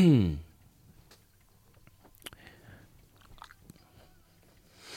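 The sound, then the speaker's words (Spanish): Faint chewing during an interview, soft wet crackles and small mouth clicks after a brief voice at the start. “Perdona, se puede mascar, ¿eh?”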